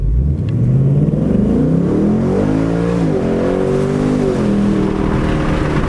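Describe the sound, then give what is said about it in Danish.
A car accelerates hard at full power with the windows down and a 10-speed automatic gearbox doing the shifting. A loud, continuous engine roar holds for about six seconds, its pitch wavering as the revs climb, with no voices. “men jeg kan altså ikke undgå at starte med den kraftige lyd, så det lyder sådan her, når jeg træder på speederen.”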